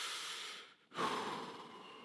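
A big breath taken during a church service: a soft, airy rush of breathing that briefly drops away, then swells into a fuller, deeper inhalation before tapering off, heard alone without talk.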